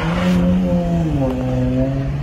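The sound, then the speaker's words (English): A 2015 Dodge Charger with an aftermarket exhaust system gives a loud, deep engine drone at low revs, steady and throaty, its pitch stepping down slightly partway through. “the quote-unquote agent was driving a 2015 Dodge Charger. We know that some Canadian law enforcement agencies use that vehicle. But if it's a government vehicle, why does it have an aftermarket exhaust system?”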